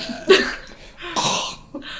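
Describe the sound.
Coughing after inhaling sugar cookie crumbs: three harsh, throaty coughs, a sharp first one followed by a longer, raspier burst and a short final hack.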